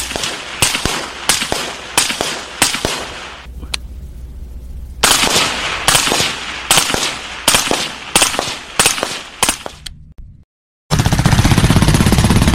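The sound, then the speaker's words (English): Gunfire from an AR-15 rifle fitted with a semi-automatic forced reset trigger: many sharp, loud shots fired in rapid strings, with a short pause early on and a brief silence near the end before a final burst of noise. “As you can clearly see, the trigger is being depressed for each round that is fired.”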